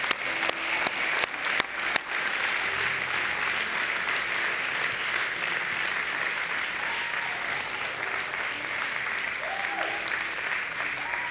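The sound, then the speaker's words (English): Audience applause at Life Church welcoming a speaker to the stage: steady, dense clapping from many hands for over ten seconds, loudest in the first couple of seconds and then holding evenly. “would you give a huge Life Church welcome to Mackenzie Mueller as Mackenzie comes? She's a big, big, big hand.”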